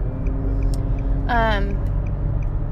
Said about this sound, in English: You can hear it in the background. You can hear the blinker and the highway.